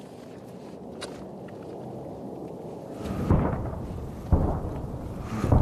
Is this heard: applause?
no